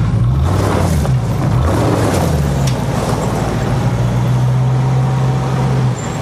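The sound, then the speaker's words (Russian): A yellow Ford Crown taxi and an SUV drive off along a wide, winding street lined with palms and cypresses, giving a continuous low engine rumble that stays steady throughout. “Тронувшись, такси едет за внедорожником. Внедорожник и следующие за ним такси едут по широкой извивающейся улице среди пальм и кипарисов.”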